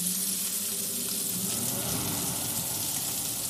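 A kitchen extractor hood runs over beef burgers frying in a pan. Its steady whooshing fan noise blends with sizzling in a constant, even wash of sound, with no talk.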